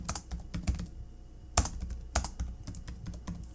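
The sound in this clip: Fingers type notes on a computer keyboard, tapping many quick keystrokes in an uneven rhythm, with a few louder, heavier presses among the faint clicks.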